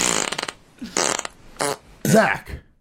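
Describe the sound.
A fart sound effect plays as a series of about four raspy, blubbery bursts. The first is a long fluttering rattle and the later ones are shorter, separated by brief gaps.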